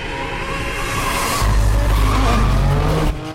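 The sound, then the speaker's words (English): Tires screeching as the Evo power slides round a bend, a loud continuous squeal over engine roar, with a deeper rumbling growl joining midway and holding until it cuts off near the end. “In slow motion, the Evo side slides, avoiding the pedestrians, then power slides round a bend. The Mazda and the 350 follow.”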